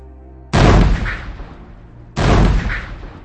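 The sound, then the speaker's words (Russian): Warship guns fire two heavy naval artillery rounds about a second and a half apart. Each blast starts sharply and booms, then rumbles on as it slowly fades. “Сначала вспышка выстрела корабельной артиллерии, потом бьющий по нервам тугой звук.”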